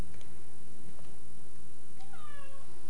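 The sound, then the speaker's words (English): A pet cat lets out a single clear meow near the end, a rising then falling cry over a steady background hiss with a few faint clicks. “Meow, kitty.”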